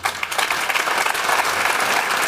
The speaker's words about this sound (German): Erstmal einen Applaus und eine Gratulation zum Erreichen der Conference League.